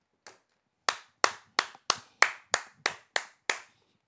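One person clapping in slow, deliberate applause: ten sharp, crisp claps. A single clap comes first, then a short pause, then nine more at a steady, evenly spaced rhythm.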